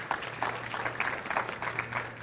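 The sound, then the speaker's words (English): A church audience claps hands: a fairly faint, steady patter of applause with a few sharper claps poking out at irregular moments throughout. “Give them a big hand clap, please.”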